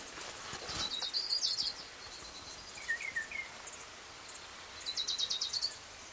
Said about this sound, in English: Here's orange crowned warbler number two.